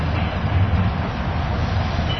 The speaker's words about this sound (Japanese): 3番線到着。お出口は左側です。